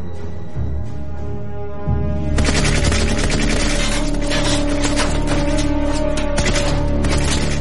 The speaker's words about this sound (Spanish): Tras abrir fuego con sus armas Sten, los dos soldados consiguen abrumar al enemigo.